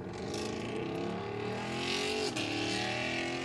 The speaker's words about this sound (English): That's a good-sounding Mustang.